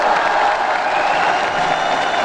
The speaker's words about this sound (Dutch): Applaus.